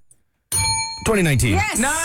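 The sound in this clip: A small bell gives one bright, high ding that rings briefly before a voice starts talking over its fading tail.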